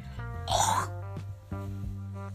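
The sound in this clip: A person with phlegm in the throat clears it once in a brief, rasping burst over a steady low hum.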